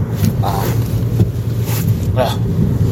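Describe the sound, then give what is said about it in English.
Interior road noise from a car being driven: a steady low rumble with wind hiss, under a person talking on and off. “In case you can't tell, I am driving.”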